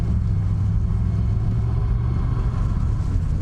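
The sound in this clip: Steady engine rumble of a car driving with a jammed steering wheel: a continuous low-to-mid drone without breaks or voices.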